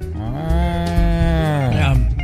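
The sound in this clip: A cow named Bessie, being ridden, moos in one long, low, drawn-out call with a rich, buzzing tone that lasts about two seconds.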